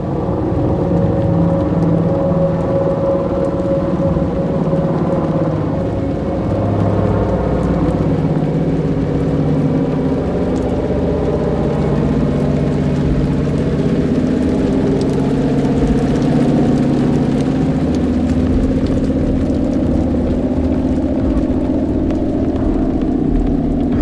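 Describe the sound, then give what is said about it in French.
A small airplane's engine drones as the plane, carrying a pilot and two passengers, comes out of fog; the loud, continuous low hum holds steady for the whole stretch with no voices. “L'avion sort du brouillard et la radio se met à hurler.”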